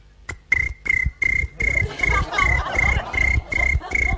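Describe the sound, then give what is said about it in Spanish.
A cricket chirps inside a bedroom at two in the morning, giving many short, evenly spaced, high-pitched chirps in a steady rhythm. The chirps are loud and heard alone, with no talk. “Dos de la mañana tenés ese grillo dentro de tu habitación, te quiere matar.”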